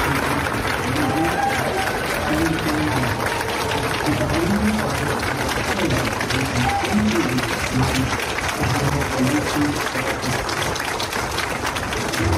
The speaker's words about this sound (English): One is simple sounds of applause.